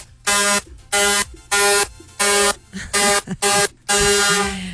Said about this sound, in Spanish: Uy, suena largo. Los pitos que yo tengo aquí. Suena largo y tendido.